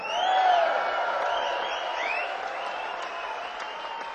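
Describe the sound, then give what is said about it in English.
An audience applauds as the band's bass guitarist is introduced on stage, with steady, fairly soft clapping that eases slightly over a few seconds. “Put your hands together, please, for Mr. Charlie Wooten.”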